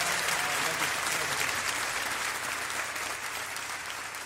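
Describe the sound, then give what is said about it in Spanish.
Audience applause for a performer at a live concert, a crowd clapping in a dense, continuous patter that stays fairly even and fades slightly as it goes on. “Un aplauso más fuerte para Reilly”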